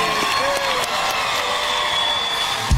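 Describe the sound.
An audience cheering and applauding as performers take the stage: a loud, dense, continuous roar of clapping and crowd noise that holds steady from start to finish.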